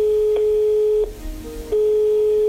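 A telephone tone sounds as a call is placed: a steady, even electronic tone that drops briefly to a lower, quieter pitch in the middle, then returns at full level to the end.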